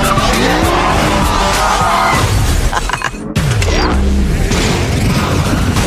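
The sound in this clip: A car skids hard as its e-brake is pulled. A loud, continuous tire screech rides over roaring engine noise, dips briefly around the middle, then picks back up.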